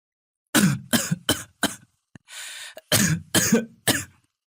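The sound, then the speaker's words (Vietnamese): Harsh, repeated coughing from a gravely ill young man clutching his chest: several loud, rasping bursts in quick succession, interrupted by a short breathy pause, then more coughs. No talk. “Nói đến đây, cậu lại ôm ngực ho sù sụ.”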